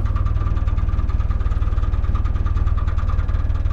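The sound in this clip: A boat engine on a small tiller-steered craft runs steadily while being put into forward gear, giving a continuous low, rhythmic throb with no voices over it.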